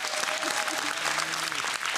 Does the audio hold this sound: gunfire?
no